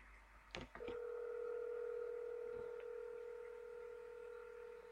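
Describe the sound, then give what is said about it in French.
A telephone dials a call: a few quick, clipped keypad tones, then a steady held line tone that continues unbroken to the end, faint and with no voices. “Allez, on appelle.”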